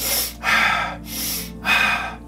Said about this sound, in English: The repetitive breathing more quickly and deeply, this kind of thing,